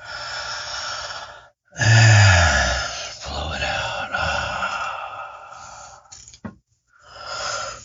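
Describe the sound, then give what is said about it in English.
Deep breathing during a guided breathing exercise: slow, full inhales followed by long, voiced, sighing exhales, with a short pause between breaths. “Inhale, big full lungs, and blow it out.”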